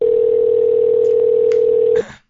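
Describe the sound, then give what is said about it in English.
A telephone dial tone plays during the dialing of a call: a loud, steady, unbroken hum with a few faint clicks over it, then it cuts off abruptly, with a short burst of noise as it ends. “We're dialing up Chad Millman. Hopefully get him on the line here.”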